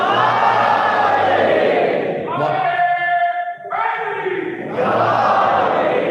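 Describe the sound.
A crowd at a religious gathering shouts a religious slogan back in unison in answer to a call. Many voices chant loud and sustained, with a short sung middle section before a final burst of shouting.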